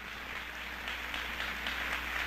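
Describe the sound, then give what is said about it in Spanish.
A church audience applauds the Lord, a faint, steady wash of clapping that holds level for the whole stretch with no voices on top. “¿Cuántos dan un aplauso al Señor Jesucristo? Denle un aplauso fuerte.”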